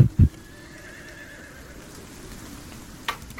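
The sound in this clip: A carriage horse whinnies in a long, drawn-out neigh. A couple of loud thumps come at the start and another near the end, over a faint, even background noise.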